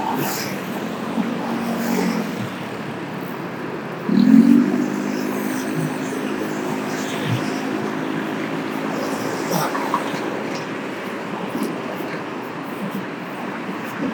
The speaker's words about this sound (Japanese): やっぱり1本出ると車の音が大きいですね。